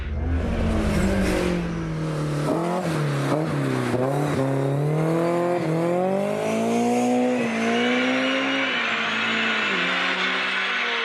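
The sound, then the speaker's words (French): A car engine revs hard, climbing quickly from about 6,000 to 8,000 rpm. Its strong harmonic whine repeatedly rises and falls in pitch, loud and continuous, with no voices. “Franchement, il monte dans les régimes à une vitesse absolument incroyable. Il passe de 6 à 8 000 tours en une fraction de seconde.”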